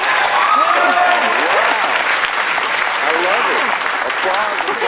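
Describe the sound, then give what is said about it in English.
Studio audience applause on a talk show: a loud, sustained rush of clapping with voices rising over it throughout, sounding slightly muffled and thin. “Applause sign, everyone, please.”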